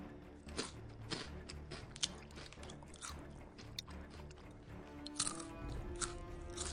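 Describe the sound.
Quiet crisp crunching of chocolate cookies being bitten and chewed, with several sharper crunches scattered irregularly among softer chewing sounds.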